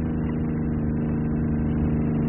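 A car engine hums steadily while driving on a cold, moonlit night after leaving the city, a constant low drone with no change in pitch and no voices.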